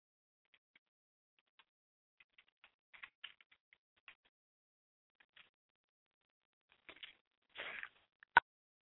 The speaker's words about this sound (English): So give me some moments if this will... Let me type this in.